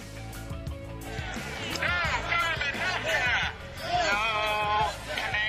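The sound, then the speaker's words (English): Protesters outside a high school in Portsmouth, New Hampshire, during a presidential health care reform event: many overlapping shouting and chanting voices form a loud, continuous crowd roar. “That is the sound of protesters yesterday in Portsmouth, New Hampshire, outside the high school where President Obama was talking about health care reform.”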